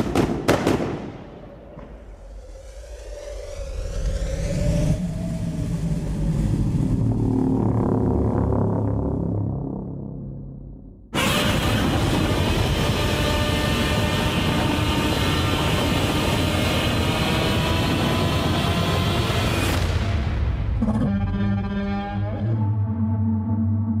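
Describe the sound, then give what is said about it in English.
Loud, dense sound effects from a Godzilla movie trailer: a swelling rumbling roar with a sweeping tone, then an abrupt cut to a sustained, blasting roar that ends in a few ringing tonal hits. “All right, you just listened to the trailer for Godzilla”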